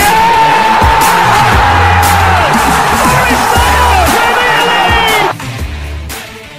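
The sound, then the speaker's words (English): A football crowd at the City Ground, Nottingham Forest's home, roars and cheers loudly and without a break, with an excited voice calling over it before the noise drops suddenly near the end. “And the City ground goes ballistic!”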